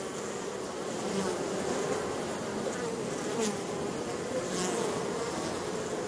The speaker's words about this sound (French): L'ensemble de l'essaim, qui a assisté pendant plusieurs heures ou plusieurs jours à toutes les étapes de la délibération des éclaireuses, se met alors à vibrer de plus en plus fort. C'est l'essaim entier qui vibre